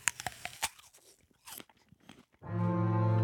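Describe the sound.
Raw, freshly scrubbed tulip bulbs being bitten and chewed: a few crisp, irregular crunches, followed by a sustained tonal sound near the end.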